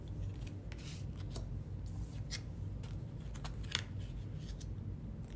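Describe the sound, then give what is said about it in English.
Oracle cards being flipped over, three cards drawn from a deck: faint, soft papery flicks and snaps at irregular intervals over a low, steady background rumble, with no talk. “So the three cards fell out, and now we're going to flip them over.”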